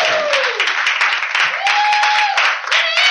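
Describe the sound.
Audience applause welcoming a performer to a festival stage: loud, continuous clapping, with a host's voice talking over it.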